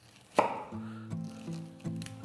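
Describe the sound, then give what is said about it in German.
A knife cuts the tough stalk out of a halved fennel bulb with a few crisp, hard chops. The first cut is the loudest, and a steady low hum runs underneath. “So, und dann nehme ich jetzt den Fenchel, den halbiere ich eben. So, da schneide ich jetzt hier unten so ein bisschen den Strunk raus.”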